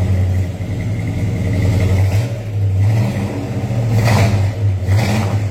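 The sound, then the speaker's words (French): A V8 engine with 440 cubic inches and 375 horsepower revs through a straight-pipe dual exhaust of two and a half inches, fitted with two small resonators. A deep rumbling idle swells into a few loud throttle surges. “juste pour toi, V8. 440 pouces cubes, 375 HP. Un petit coup de gaz.”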